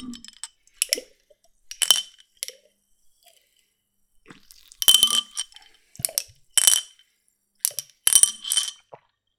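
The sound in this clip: Glassy clinks of a marble rattling inside a Ramune soda bottle as the last of the drink is sipped, heard as many short, bright chinks and small sips in bursts separated by brief pauses.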